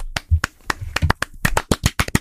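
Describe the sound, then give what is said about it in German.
Knocking on a table: a quick, irregular run of many sharp, dry raps, loud and heard without talk. “Ich habe auf den Tisch geklopft.”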